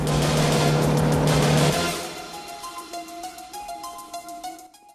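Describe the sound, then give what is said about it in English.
A silver car slews round and skids to a stop. A loud roar of engine and tire noise lasts under two seconds, then drops off sharply and fades to quieter sounds. “He slews the silver car round and skids to a stop directly in the path of the oncoming tanker.”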